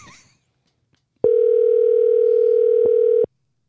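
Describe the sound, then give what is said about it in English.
A telephone tone on a call: one steady, mid-pitched, continuous beep held for about two seconds, then cut off abruptly, with only faint noise before it. “I'm going to call one more time just to annoy him.”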